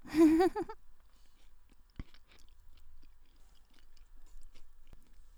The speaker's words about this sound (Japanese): シャキシャキが止まらんね。